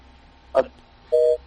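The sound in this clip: A telephone busy tone after a dropped phone call: one steady electronic beep of a fairly high pitch, held for about a quarter second, with a brief faint noise shortly before it.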